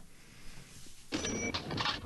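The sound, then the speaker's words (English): A cash register's mechanical clatter and bright ring are used as an effect in a music track. They enter after a quiet opening and repeat in a few chunky, ringing bursts. “Because it's got that cash register tilt thing.”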